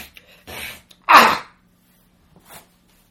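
A man clears phlegm from his throat in one short, harsh burst, preceded by a few faint mouth noises and followed by a softer one.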